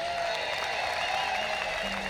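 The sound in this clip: An audience at a bluegrass show claps to welcome a mandolin player, a dense, steady applause held at a moderate level throughout.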